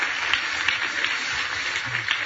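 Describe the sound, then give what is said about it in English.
Audience applause at a community event as people are welcomed onto a stage, a steady, dense patter of many hands clapping throughout. “You're supposed to give applause so they can have time to come up and get in their thing there.”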